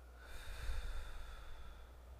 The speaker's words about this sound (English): Where you can breathe in through your nose. And let it go.